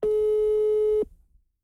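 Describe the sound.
A telephone ringback tone heard while a call waits to be answered: a single steady, mid-pitched beep lasting about one second, then a brief faint tail and silence.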